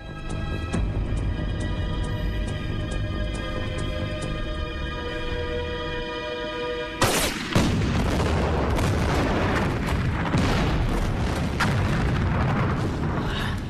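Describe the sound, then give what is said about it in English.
Explosions erupt across a burning factory: a steady droning tone is cut off by a sudden loud burst, followed by a continuous dense roar of blasts and deep rumbling with many sharp cracks scattered through it. “ducks for cover as explosions occur all over the factory.”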